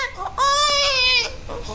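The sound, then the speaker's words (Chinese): A hungry baby cries in loud, wailing bursts, with one long, strained, high-pitched cry in the middle between shorter whimpering sobs. “不哭！他饿了啊”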